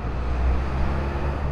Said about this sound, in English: Outside Arup's office on 2nd and Mission Street, it sounds like this.